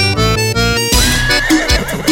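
A horse gives a loud, shrill neigh at a vaquejada rodeo event. The whinny cuts in right after a burst of loud, bass-heavy music, then trails off in quavering, stuttering bursts.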